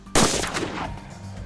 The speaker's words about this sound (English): we're going to do a quick chrono to show you the difference between a 5.7 pistol and the PS90.